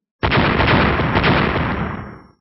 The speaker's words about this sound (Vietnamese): Trên không trung, tiếng nổ vang không ngừng, màn mưa kiếm màu lam rơi xuống liên miên không dứt